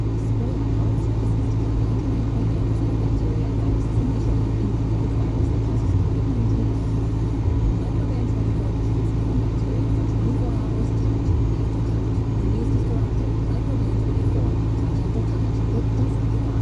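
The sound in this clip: Low engine and road rumble inside a moving car as it is driven, a dense continuous drone at an even loudness the whole way through, with no distinct separate events.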